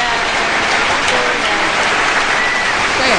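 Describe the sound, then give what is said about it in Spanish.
A host's applause sound effect fills the entire stretch with dense, steady clapping that stays loud and even from start to finish. “te mete los aplausos”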